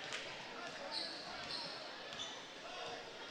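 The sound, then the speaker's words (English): A basketball is dribbled on a court during a game: faint, regular bounces come through under steady crowd noise. “just dribbling up on top”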